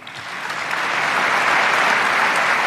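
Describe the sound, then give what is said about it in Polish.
Sustained applause in Berlin marks the close of Angela Merkel's time as chancellor during the election of her successor. A dense, steady roar of many hands swells slightly at first, then holds evenly. “Trwającymi ponad minutę oklaskami kończy się w Berlinie era Angeli Merkel.”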